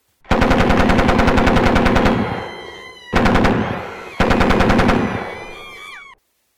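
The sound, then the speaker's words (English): Automatic gunfire, presented jokingly as the starting gun of a marathon in Pyongyang: three loud, rapid bursts of machine-gun shots. The first burst is long, followed by two shorter ones, each ending in a fading crackle. “I have a sound clip here from last year's event, the very beginning, when they fire the starting gun.”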